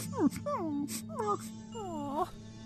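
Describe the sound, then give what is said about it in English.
A voice imitates a whining noise: a few high, wavering whimpers, each sliding downward in pitch, faint and spaced by short pauses. “Is this whining noise familiar to me in a happy way?”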